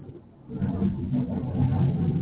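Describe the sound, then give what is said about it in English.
A low, heavy roar of jet aircraft flying low overhead swells after a quieter opening and then holds as a loud, steady rumble with no voices. “I don't know if you guys can hear this, you guys, but it is insane. Like, these jets are just flying lower than I've heard them fly all summer,”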